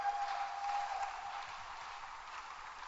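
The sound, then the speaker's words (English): Congregation applauding in a church, a continuous even wash of clapping at moderate volume with no breaks. “Shall we put our hands together and welcome Sandra Santiamua to give us her testimony.”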